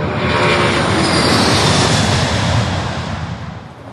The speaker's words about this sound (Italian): all'aeroporto di Firenze.